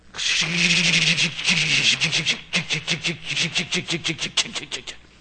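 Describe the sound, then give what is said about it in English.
A voice imitates a low trailer bottoming out and scraping along a curb as a vehicle pulls into a mall parking lot: one long voiced rasp breaks into many rhythmic scraping pulses. “And the trailer would be so low, and it just skid along the curve as we try and get in.”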